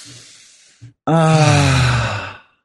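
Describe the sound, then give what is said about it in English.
A person takes a deep clearing breath: a brief quick inhale, then a long voiced sighing exhale of about a second and a half that gradually fades out. “We'll take one clearing breath.”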